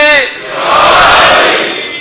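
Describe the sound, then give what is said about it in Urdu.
A crowd at a religious gathering shouts the Nara-e-Haidari slogan: after a brief voice at the start, one loud collective shout swells, holds for about a second, then fades. “اب ہم نعرہ لگائیں گے نعرہ حیدری”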